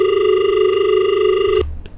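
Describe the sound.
A telephone rings with an incoming call: one steady electronic ringing tone with bright, even harmonics holds for about a second and a half, then cuts off abruptly, leaving only faint low rumble.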